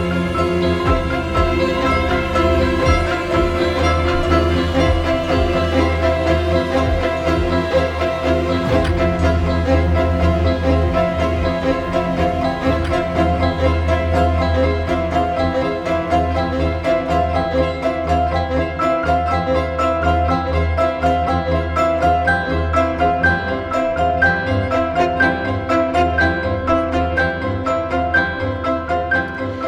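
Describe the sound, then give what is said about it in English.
Minimalist classical ensemble music repeats short phrases over and over while the harmony barely shifts, forming a dense, steady, loud texture that continues without a break. “So as you can hear in this instance, phrases are repeated over and over again, and the harmony doesn't change much, if at all, over long stretches of time.”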